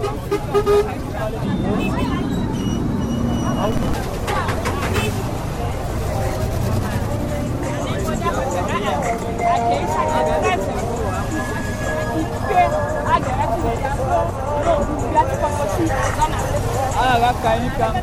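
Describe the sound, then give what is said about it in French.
Busy street traffic on a narrow road lined with street vendors, with cars and motorcycle taxis pushing through. Dense, continuous engine rumble with several horn toots and voices mixed in throughout. “Difficile de circuler, la route est resserrée, véhicules et mototaxis se fraient un chemin entre les vendeuses ambulantes.”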